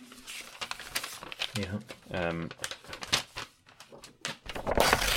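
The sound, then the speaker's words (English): Paper script for an advert read being ripped up and crumpled, several coarse tearing and crinkling bursts mixed in with people talking. “What's happening? You ripping up the ad read?”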